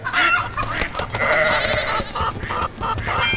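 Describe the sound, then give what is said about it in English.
Chickens in a video game give loud, bleating, clucking calls in quick succession, several cries overlapping with a busy, raspy texture. “Where are the chickens? Chicky, chicky, chick.”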